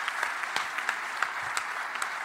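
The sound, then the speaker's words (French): Audience applause at a live public show at the Bataclan: quiet, scattered claps in a soft, brief patter, with a few louder individual claps standing out. “c'est Éléonore qui a gagné, on peut l'applaudir. Bravo. Bravo.”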